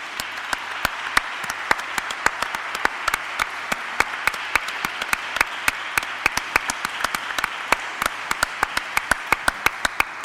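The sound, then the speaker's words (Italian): Dense applause from an evening audience honouring a group of young people, many hands clapping steadily in sharp, closely packed claps throughout, with no voices on top. “Un applauso a tutti i giovani di Rondine e ai giovani”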